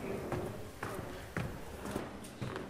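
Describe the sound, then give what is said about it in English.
Footsteps climb a grand staircase from the entrance hall of a house. The steps are faint and evenly paced, about five of them roughly half a second apart. “And we're climbing the grand staircase from the entrance hall.”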